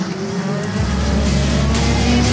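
Race car driving on a circuit, its engine holding a loud, steady, buzzing roar throughout with a deep low rumble underneath.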